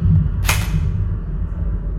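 A single sharp shot-like crack from a mock M4 assault rifle fired during a shock-belt challenge, a brief bright burst standing out over a steady low background rumble.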